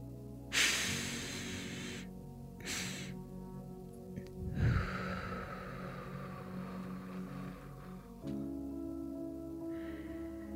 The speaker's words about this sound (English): you take two inhales through your nose, the first one longer than the second, and then exhale slowly through your mouth. Let's try it together.